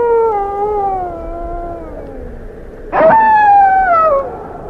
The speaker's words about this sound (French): Et puis, tout à coup, derrière le vent, un hurlement de loup, très long, très modulé, qui raconte un tas de choses.